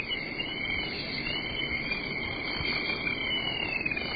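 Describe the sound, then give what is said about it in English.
Bugs chirping outside, likely crickets, make a dense, steady, high-pitched trill that runs without a break. The sound holds at an even level, with no voices over it. “You see, there's just so many bugs,”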